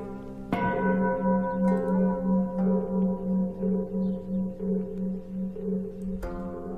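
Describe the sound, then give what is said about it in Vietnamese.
A temple bell rings with a sustained, wavering low hum and bright overtones. It is struck once near the start and again just before the end, with no voices. “cái tiếng chuông mõ vẫn cứ vang lên như thế”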